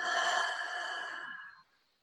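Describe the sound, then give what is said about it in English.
A deep clearing breath taken during a breathing exercise, heard as one long, airy sigh-like rush of air that gradually softens and then cuts off into near silence. “Let's take a big clearing breath in through the nose. Open your mouth and let it all go.”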